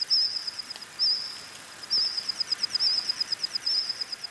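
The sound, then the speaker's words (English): AI-modelled calls of Jurassic insects from 165 million years ago: a thin, high-pitched chirping that pulses in a quick, regular rhythm, faint and alone. “Using the fossil record and AI, scientists have modeled the calls of insects that lived alongside dinosaurs.”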